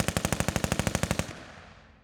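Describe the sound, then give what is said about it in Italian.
A short burst from a submachine gun fired by German soldiers: a rapid, even string of loud shots lasting just over a second, followed by a fading tail of reverberation. “Un'altra breve raffica e anche per il militare tedesco è finita.”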